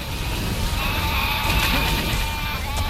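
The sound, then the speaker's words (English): Sheep bleat in a video game scene, with wavering cries that carry over a dense, loud, noisy background throughout. “I hear the bleating of lesser creatures,”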